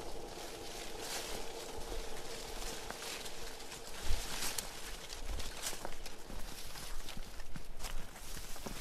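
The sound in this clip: Footsteps walking through the Salao make a dense, continuous crunching texture of many overlapping steps at an even level, with no voices.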